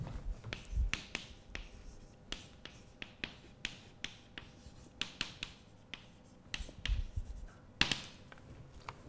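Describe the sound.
Spherical coordinates being written on a board, with a run of sharp taps and short scratchy strokes in an uneven rhythm, fairly faint and without talk.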